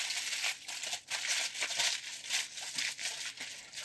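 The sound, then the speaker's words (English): Aluminium foil crinkles as it is tightly wrapped around a loaf of bread filled with butter, poppy seed and mushroom mixture; bright, crackling bursts of rustling come in uneven waves, fairly faint, with no talking. “And so we are gonna go ahead and tightly seal the bread up in foil.”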